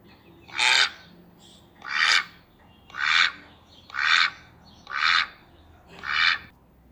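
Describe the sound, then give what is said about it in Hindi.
Ducks quacking to one another: six loud, raspy quacks in an even, regular rhythm, each a short burst with a pause between, with no other sound around them. “बतखों ने आपस में बात की।”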